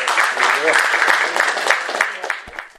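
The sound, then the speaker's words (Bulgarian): Applause from an audience at a public event, steady dense clapping that holds for nearly three seconds and fades at the end, with a voice briefly heard at the start. “Да му пожелаем успех с бурни аплодисменти за всичко, което”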